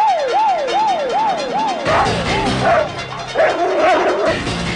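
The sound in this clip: Guard dogs bark excitedly on a riverbank outside a prison, where patrol cars wait. A siren first yelps in repeated rising-and-falling sweeps, then the dogs break into loud, overlapping barks and yips while the siren continues faintly beneath them.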